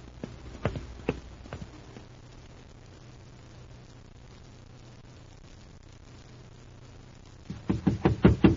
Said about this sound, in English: a man's coming around the corner. And from the way he's stepping it off, he's in a hurry.